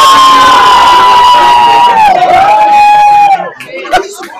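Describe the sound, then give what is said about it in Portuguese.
A street crowd cheering for Argentina, loud and sustained, with one long drawn-out shouted cry rising above the rest before the noise drops away. “Por que esses caras estão torcendo pra Argentina? Não, não, é aqui na rua, cara, tá louco?”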